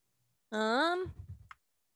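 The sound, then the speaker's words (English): Dice rolled during a tabletop role-playing game: a short vocal sound, then a brief rattling clatter of a few quick clicks that ends in one sharper tap. “Okay, I don't know why I keep rolling that dice, but one of them is a nat 20.”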